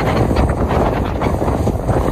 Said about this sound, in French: Le vent aujourd'hui, c'est le plus fort que j'ai jamais eu depuis le début du voyage.